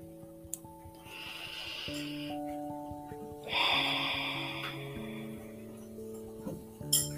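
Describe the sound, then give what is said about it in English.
A person breathes in and out deeply: a slow, airy inhale, a pause, then a longer, stronger exhale, soft overall, with quiet sustained notes beneath. “So, what we need to do is we need to breathe in and breathe out.”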